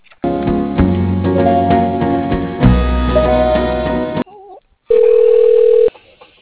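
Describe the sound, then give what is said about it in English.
A telephone call is transferred to voicemail: a few seconds of narrow, phone-line tonal sound, then a short pause and a single steady beep. “And I'll go ahead and send you to his voicemail.”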